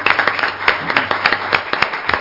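A church audience claps hands in praise, with many sharp, overlapping claps in a fairly steady rhythm and no voices.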